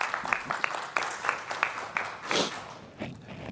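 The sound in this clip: Audience applause greets a speaker being introduced at a talk on water issues, fairly faint, with uneven individual claps that swell and fade over a few seconds.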